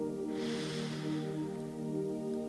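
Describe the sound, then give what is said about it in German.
A deep inhalation through the nose, heard as a long airy hiss that swells and fades over about two seconds above sustained background tones. “Atme nochmal ein.”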